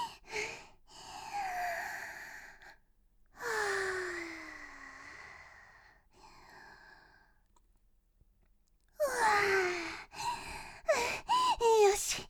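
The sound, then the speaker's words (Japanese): Deep breathing taken to calm down in a flustered moment: a few soft, breathy inhales and exhales with voiced sighing, separated by quiet pauses, then a louder, busier stretch of breath near the end. “困った時の深呼吸。”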